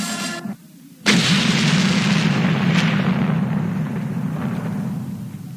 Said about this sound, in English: What was that? It sounded like something exploded.